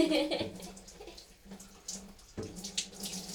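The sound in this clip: Water sloshes and runs as someone washes their body in a bath, faint irregular splashing with a few louder splashes, no talking.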